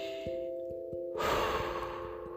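A slow breath with one long, airy exhale that swells partway through and fades gently, over a steady low hum.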